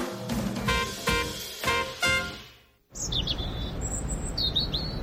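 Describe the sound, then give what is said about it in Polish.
Birds chirp with bright, high, thin calls in quick repeated phrases. The calls enter after a short burst of louder tonal sound and continue over a soft steady background. “Ptaszki ćwierkają, że idzie wiosna, ale czy to już?”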